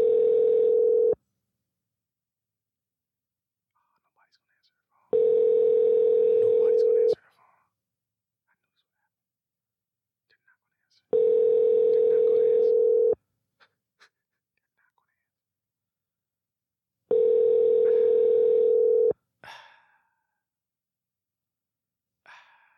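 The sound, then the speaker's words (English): Telephone ringback tone heard while calling someone: four long, steady buzzing tones, each about two seconds, separated by silent gaps of roughly four seconds, with a faint short noise after the last one. “Hold on. He might answer. See, if you give me your phone number, I'm able to call you randomly on the podcast. If he answers.”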